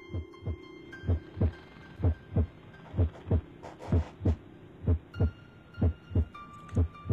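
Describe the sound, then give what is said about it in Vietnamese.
A pounding heartbeat sound effect for a frightened woman's racing heart, low paired thumps in a steady lub-dub rhythm repeating throughout over a faint sustained hum. “chỉ có một mình bà nghe thấy rõ mồn một tiếng quả tim của bà đang đập rộn ràng như là tiếng trống trận vậy.”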